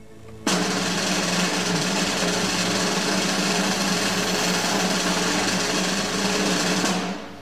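A sustained drum roll before a prize-draw number is revealed, a dense, steady, loud rattle that starts abruptly and holds for about seven seconds with no talk over it.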